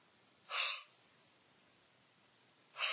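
A deep breath drawn in by a preacher demonstrating the word inspiration, heard twice as short, airy gasps rising out of a faint, quiet background.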